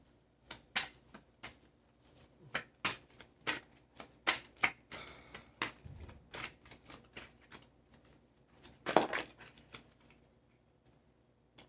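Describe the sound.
Tarot cards shuffled until some fall out: many crisp, papery taps and flicks in an uneven rhythm, with a louder clattering burst near the end before it goes quiet.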